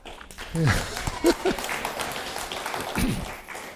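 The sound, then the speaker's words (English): A church audience claps at a moderate level while a man's voice breaks in over the clapping a few times. “I'm not sure why there's clapping”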